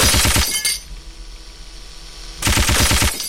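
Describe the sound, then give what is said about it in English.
Machine-gun fire in a video game: two loud bursts of rapid, evenly spaced shots, separated by a quieter stretch of about two seconds. “Machine gun.”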